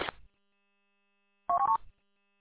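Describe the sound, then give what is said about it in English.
A radio repeater tone: a brief burst of noise, a pause of silence, then a quick sequence of stepped electronic beeps that change pitch over a fraction of a second before cutting off. “I'm not sure why the WADCI repeaters even do that noise in the first place.”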